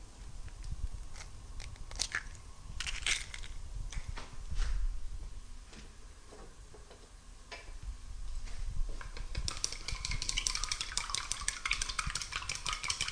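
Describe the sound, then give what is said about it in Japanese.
Eggs being cracked for egg-drop rice porridge, producing irregular faint taps and sharp cracks with light clinks over a quiet background. “というのは、卵を割って、かきたまにするので、ちょっと、多めの水加減になっています。さあ、じゃあ卵を割っていきますね。”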